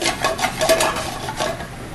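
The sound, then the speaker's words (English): Thin garlic slices gently toasting in a pan over low heat. Repeated soft scraping and stirring strokes of a utensil against the pan come at a steady, moderate level. “want that low. Just kind of gently kind of toast that garlic. Gently toast.”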